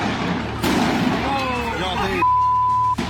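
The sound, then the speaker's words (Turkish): Wedding fireworks that veered sideways and burst low over the guests: sharp, loud explosive bangs with crackling and rumble, mixed with voices crying out. “Havai fişekler gökyüzüne yükselmedi. Aksine yön değiştirdi. Davetlilerin üzerinde işte böyle patladı.”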